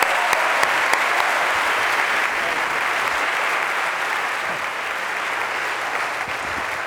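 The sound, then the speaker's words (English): Audience applause at an opening college convocation greeting the president as he steps to the podium: a full, steady roar of many hands clapping that carries on evenly and eases off slightly toward the end. “Without further ado, let's put our hands together and welcome President Brenneman to the podium.”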